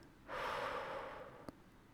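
A slow exhale during guided meditation, a soft breathy rush lasting about a second that tapers gradually, faint and alone, followed by a tiny click.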